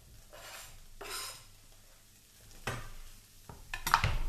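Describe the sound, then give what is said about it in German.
Onions, garlic and chorizo fry in leftover oil in a pan for a spicy chorizo spinach pasta dish. Faint sizzling bursts mix with a few stirring scrapes and utensil clatter, growing louder toward the end. “Da haben wir jetzt einfach die äh, Zwiebeln mit dem Knoblauch und der Chorizo rein.”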